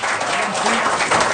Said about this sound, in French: Monsieur Robert Lepage, qu'on applaudit.